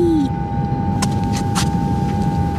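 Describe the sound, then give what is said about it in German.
Steady electric hum and low rumble of an elevator going down, with a constant mid-pitched tone and a few faint clicks over the drone. “Ich hole mal den Fahrstuhl. So, einsteigen. Ja, so, okay. Ich bin drin. Und nach unten fahren.”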